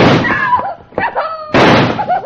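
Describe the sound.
A gunshot in a Western-style drama scene during a dispute over cattle money: a loud, sharp blast with a broad ringing tail, surrounded by shouting voices.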